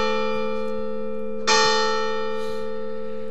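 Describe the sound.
Church bells ring with a steady, sustained hum of layered tones. One sharp, bright strike lands near the middle and then fades back into the long ringing.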